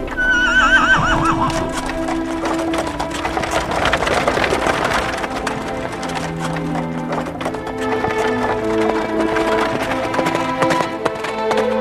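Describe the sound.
A horse neighs loudly as a horse-drawn chariot sets off, its high wavering whinny followed by steady clip-clop hoofbeats that continue throughout.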